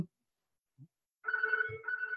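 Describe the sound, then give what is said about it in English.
A telephone rings after near silence with an electronic, bell-like trill in two bursts separated by a short break, faint and steady in pitch, with a brief low voice sound during the ring. “oh, that's our phone going now.”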